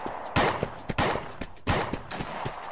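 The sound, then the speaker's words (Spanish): Sniper rifle shots ring out in three loud, sharp bursts, evenly spaced, with a few quieter clicks between them. “Es un francotirador.”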